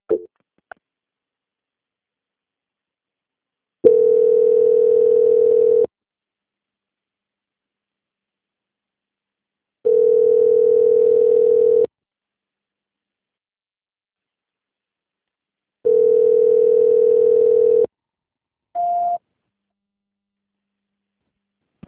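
A telephone line tone plays while a call waits to be answered: three long, steady, low beeps of about two seconds each, evenly spaced between long silent gaps, with one brief higher blip near the end.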